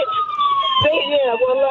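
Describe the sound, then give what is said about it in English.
An ambulance siren wails with loud, wavering high tones that continue steadily throughout, over a low rumble. “Wait a minute, the ambulance truck is coming. Here they come.”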